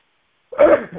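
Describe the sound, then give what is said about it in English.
A single human sneeze bursts out abruptly after a moment of silence, loud and brief, with a sharp onset and a quick trailing exhale. “I'd have to sneeze again.”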